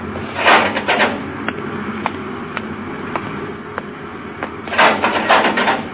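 The inner hatch of a spaceship observatory opens: mechanical whirring bursts at the start and end frame a steady run of evenly spaced sharp clicks, all over a low continuous hum.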